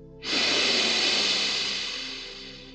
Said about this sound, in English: And then exhale completely. Inhale deeply again.